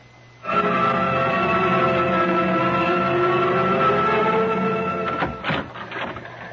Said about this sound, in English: I've been staring at that teletype machine out there until I can't see straight.